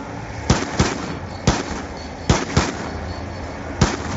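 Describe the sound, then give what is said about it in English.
Gunfire in a video game: several sharp, loud shots fired at irregular intervals, each a sudden crack that fades quickly over low background noise. “This is probably stupid to fire my ammo at the back like that.”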